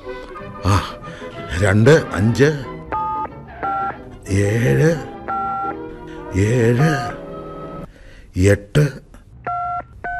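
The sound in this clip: Telephone keypad tones sound as someone dials a number: a few short, steady electronic beeps, each a clear two-tone pitch, spaced out between stretches of talking.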